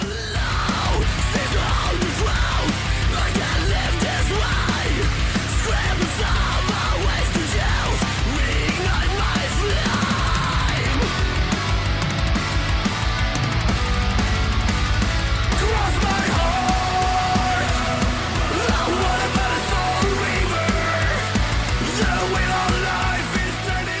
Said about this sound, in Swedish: Bang, snabba trummor, skrik och catcha melodier.